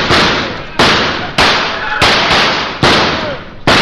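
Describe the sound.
Gunshots fired at a fleeing man in a radio drama: a rapid series of loud, sharp blasts, each followed by a long decaying tail.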